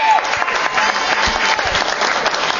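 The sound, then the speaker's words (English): Loud, dense audience applause after donation announcements at an organization's chapter meeting, an unbroken wash of clapping for under three seconds. “Yes, go ahead. Applaud.”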